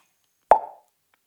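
A single short plop sound effect: a quick, hollow, resonant pop that dies away within about a quarter second, heard alone against silence.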